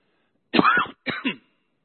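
Throat clearing from a popcorn husk stuck in the throat: two short, rough, rasping bursts, the first one longer than the second, then quiet.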